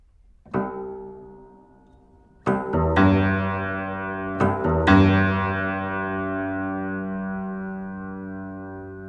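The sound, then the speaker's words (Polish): An old grand piano played as a sound test: a single struck note, then a few loud chords close together, each ringing with a long, slowly fading sustain. “Cóż, możemy sobie zrobić próbę dźwięku z tego fortepianu.”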